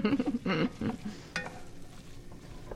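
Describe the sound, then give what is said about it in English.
Small turnips tip into a pan of chopped onions and ground rice, setting off a steady frying sizzle with a few louder stirring and scraping bursts near the start. “So we're going to put these little turnips in. Okay. This looks like, with the ground rice in a lot of chopped onions, it looks like there's a white confetti among the onions.”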